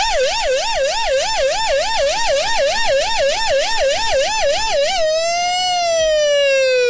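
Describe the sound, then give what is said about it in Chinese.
A special police unit's siren sounds loud and alone in a fast, rapid warbling yelp. It then switches to a steady wailing tone that slowly rises and falls. “然后这是这个特警喜欢用的警笛”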